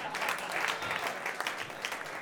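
Concert audience applauding for a guest singer while the guitarist changes instruments, fairly soft clapping from many hands with distinct individual claps standing out.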